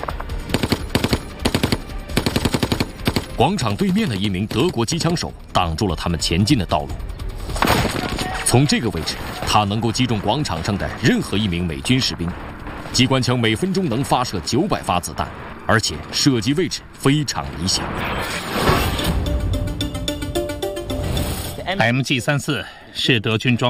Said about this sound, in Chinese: 广场对面的一名德国机枪手挡住了他们前进的道路。从这个位置，他能够击中广场上的任何一名美军士兵。机关枪每分钟能发射900发子弹